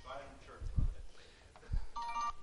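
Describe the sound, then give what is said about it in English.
A phone ringing during a church service: a brief electronic ringtone near the end, preceded by a couple of dull thumps and a quiet voice. “That's my phone.”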